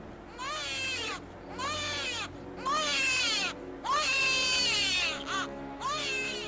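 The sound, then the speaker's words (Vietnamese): A creature wails with a cry like a newborn baby, echoing in a dark cave. A series of loud, drawn-out bleating cries bend up and then down in pitch, separated by short pauses, with one brief, quieter cry near the end. “nó kêu lên một cái tiếng như là tiếng trẻ sơ sinh khóc vang vọng trong hang tối.”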